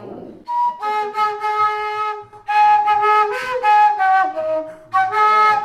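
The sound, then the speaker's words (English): An Andean wooden tarka flute plays reedy, harmonic-rich tones in a few sustained phrases separated by short pauses. The notes are loud and buzzy, with strong overtones stacked above each pitch. “That's the sound, with harmonics and everything, and that's the sound of the tarkeara.”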